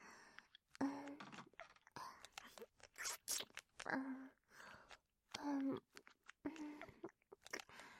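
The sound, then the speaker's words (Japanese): Gentle biting and wet mouth sounds mixed with close, soft whispering, coming in short irregular bursts with brief pauses between them. “ほら、右の乳首の先も、甘く噛んであげるね。”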